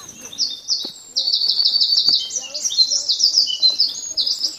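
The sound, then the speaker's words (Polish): Loud song of a wren, a tiny bird, in a ravine with lush vegetation: rapid, high-pitched trills and warbles that start after about a second and run on without a break. “Słyszycie taki bardzo głośny śpiew? On teraz umilkł oczywiście. Ten śpiew to jest śpiew strzyżyka. On jest bardzo głośny, ale to jest taki malutki ptaszek.”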